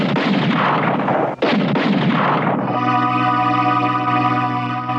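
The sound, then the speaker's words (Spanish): A rifle is fired blindly by a trembling, anxious shooter. One sharp crack cuts through a dense, noisy wash, and sustained musical tones follow. “Hugo Branco dispara a ciegas, con pulso tembloroso y angustiado.”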